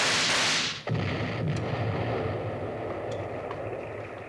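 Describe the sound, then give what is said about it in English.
A dynamite blast in a Western radio drama: one loud roaring burst that cuts off abruptly, followed by a long low rumble that slowly fades. “They're lighting the fuse, Bill. We've got one chance, Jingles. Hold onto that rock with one hand and get a Colt in the other. And shoot them before they throw it. Here it comes. Blast it before it gets down to us, Jingles.”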